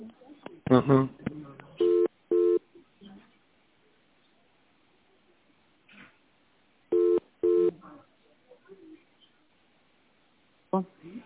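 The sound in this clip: Telephone line tones sound while a business call is being transferred: two pairs of short, steady, flat tone bursts separated by quieter gaps, with a few muffled sounds between them.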